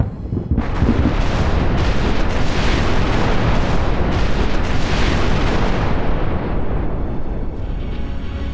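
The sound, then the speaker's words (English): A torpedo explodes against a ship's hull with a sudden, massive blast. A loud, sustained rumbling roar with rolling crackles continues for several seconds and eases slightly toward the end. “The blast was cataclysmic. A world-ending impact, targeted right at our hull.”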